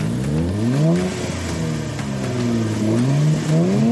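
A twin-turbocharged 400-horsepower V6 car engine revs, its smooth hum climbing in pitch, dropping back, holding steady, then climbing again, loud and alone without talk.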